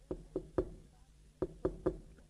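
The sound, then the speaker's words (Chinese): Gentle knocking on a bedroom door at night: six soft, hollow knocks in two groups of three, separated by a short pause, in a quiet setting. “侯君集呢，在外边就轻轻的敲门。”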